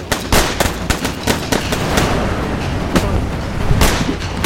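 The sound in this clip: Rapid gunfire in a shootout aimed at a signal tower, many sharp, loud cracks crowding closely together over a low, steady rumble for several seconds.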